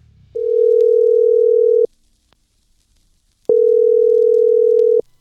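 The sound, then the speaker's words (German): Telephone tone heard while placing a call: two long, steady, mid-pitched tones of even loudness, separated by a silent pause of similar length, loud and alone with no talk. “dann werde ich mich mal vorbereiten und den Künstler anrufen.”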